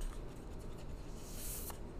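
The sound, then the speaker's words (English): Tarot cards being shuffled, giving a continuous dry papery rustle and riffle that holds steady for the whole stretch, with no voices over it. “so I'm just shuffling the tarot cards right now.”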